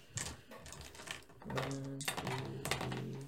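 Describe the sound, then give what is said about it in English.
Six six-sided dice clatter across a surface during a tabletop roleplaying game, a burst of hard rattling clicks that keeps tumbling and tapping, with a faint steady tone underneath. “I'm gonna roll. All right. Hell yeah. I need 6 d6s, please, and I will take that one.”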